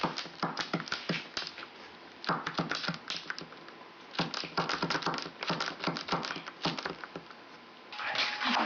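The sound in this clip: Mechanical clacking of a Braille writer as a letter is written in Braille, with many sharp key strikes in quick, uneven bursts separated by short pauses and no talking.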